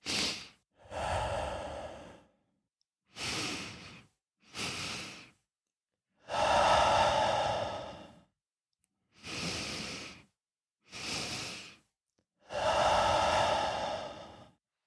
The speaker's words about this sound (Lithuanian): Tai tas pirmas įkvėpimas per tris skaičius, tada aštrus užbaigimas įkvėpimo. Aštrus tai turiu omenyje, vad kiek liko dar įkvėpti, tiek jūs ir įkvėpėt iki pat viršaus ir tuomet iškart per burną iškvėpėt